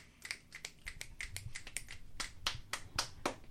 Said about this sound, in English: Snaps or claps or whatever you like